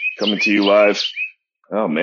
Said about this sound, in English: You hear the birds chirping, saying hello this morning.